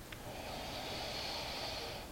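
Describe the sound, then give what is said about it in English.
A single deep, steady inhale drawn in over about two seconds, a soft airy rush of breath that holds an even level from start to finish with no talking. “And now take a very deep breath in.”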